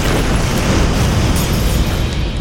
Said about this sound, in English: We cut to an incredible explosion.